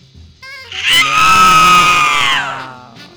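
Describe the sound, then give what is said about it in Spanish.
A person lets out one long, loud, high-pitched scream lasting over a second, its pitch sliding slightly downward as it fades, with brief fainter sounds before it. “Oigo un grito.”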